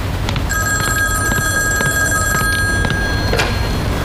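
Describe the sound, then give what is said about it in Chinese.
Telephone ringing: a steady electronic ring of high, clear tones sounds loudly for a few seconds over low background noise. “我去接一下电话。”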